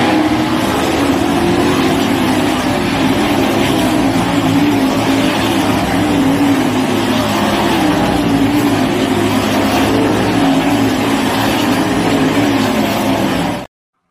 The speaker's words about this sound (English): going to a racetrack last night, and I figured I would bring back some videos and tell you I approve this message. Support your local dirt track, all right?